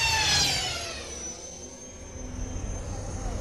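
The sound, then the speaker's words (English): A speeder vehicle accelerates away in a sound effect: a jet-like roar with a high whine that drops in pitch, then settles into a steady, rumbling engine drone. “Is this thing fast? I only steal the best. Go, go! They accelerated away from the scene.”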